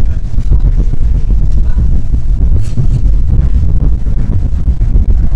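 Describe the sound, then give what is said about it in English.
Wind on the planet Mars, blowing at 10 to 15 mph, makes a loud, low, bassy rumble that stays steady and unbroken throughout, with no other sounds. “But would you like to hear what the winds on Mars sound like? Okay. This is not a joke. I'm going to have to really turn this up, though, because you can just barely hear it. But these are sounds. Wind blowing between 10 and 15 miles an hour.”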